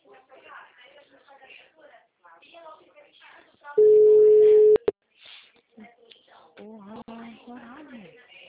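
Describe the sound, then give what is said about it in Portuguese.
A telephone tone sounds after a dropped call: one loud, steady, mid-pitched tone lasting about a second, cutting sharply into ongoing conversation. People talk before and after it. “a ligação caiu”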